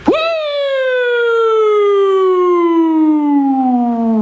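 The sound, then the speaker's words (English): A voice imitates an old police car siren with one long, smooth wail that slides slowly and steadily downward in pitch. It stays loud and unbroken for about four seconds. “Remember the cops would sneak up behind you? They had that nice soothing siren. They'd get in behind you and be like,”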